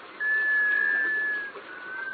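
A sea duck gives a mysterious, musical wailing call, rising into one steady, whistle-like tone held for over a second before easing back into a softer, breathy murmur.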